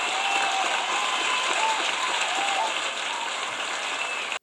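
An audience applauds a contestant at a comedy show, a steady, dense wash of clapping that holds at even loudness throughout and cuts off abruptly at the end.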